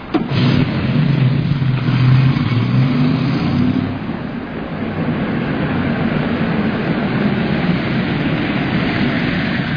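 A car engine revs with a loud, rough roar for a few seconds, then drops to a steadier, slightly quieter running drone with no talk.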